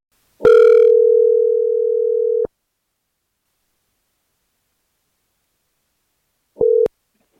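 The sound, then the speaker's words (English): A telephone dial tone sounds as a call is being placed: a steady, loud, mid-pitched hum lasts about two seconds and cuts off abruptly. After several seconds of silence, one short tone follows near the end. “For context, I called up Jonathan.”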